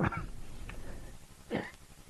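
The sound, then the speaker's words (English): Short, harsh coughs from a person, muffled and fairly quiet: one burst at the start and a stronger one later, with soft breathy noise between them. “I'm sorry, I had to cough.”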